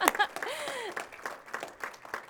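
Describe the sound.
Applause and clapping in praise of a young boy's testimony at a church gathering. Many quick, uneven claps are heard at moderate volume, with a brief voice cheering over them near the start.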